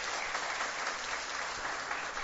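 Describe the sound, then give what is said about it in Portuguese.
An audience claps in sustained, dense applause for a gathering's tribute. The clapping holds at an even, fairly strong level throughout, with no voices above it. “peço a todos hoje uma salva de palmas para o nosso amigo Quirino”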